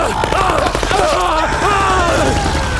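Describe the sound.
Rapid video game gunfire rattles in dense, continuous bursts, loud and unbroken, mixed with voices shouting over the shooting.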